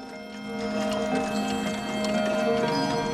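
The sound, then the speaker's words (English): Many clocks going off at once: a dense, sustained jangle of ringing and chiming tones layered together, holding steady and fairly loud throughout. “She turns and looks at the clocks as they all go off.”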